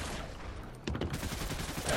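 Video game gunfire: after a quiet opening, a sudden rapid burst of shots breaks out and continues as a fast rattling volley, fairly faint overall.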